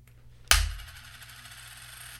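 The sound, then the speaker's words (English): A flipped coin landing, a single sharp metallic clink followed by a faint ringing shimmer that fades away over about two seconds. “heads is for picketing. Tails is writing. Mm-hmm. Okay, here we go. Here's a flip.”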